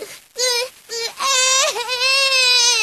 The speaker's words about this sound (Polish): Co ci jest, malutki? Nie płacz, mamusia jest z tobą.